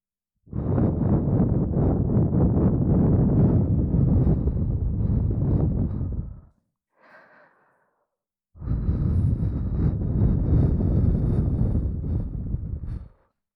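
Breath is blown into an ear to dry it after licking. There are two long, steady, airy blows, loud and close, separated by a short pause with a faint brief puff.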